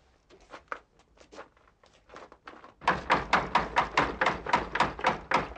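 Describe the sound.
Knuckles rap on a door, first in soft, quick taps, then in loud, rapid, insistent knocks that keep a steady pulse.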